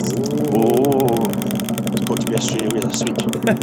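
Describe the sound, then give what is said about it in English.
A Lazy Susan turntable spins with a rapid, even run of clicks that continues after a voice speaks over the start. “in order to find out where we're not going, I shall spin the Lazy Susan of Doom.”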